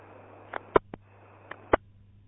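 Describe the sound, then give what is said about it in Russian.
Muffled coughs from a person turned away from the microphone, heard as several short bursts in two small clusters over a steady low hum, with no talking. “Блин, кашлянул в сторону.”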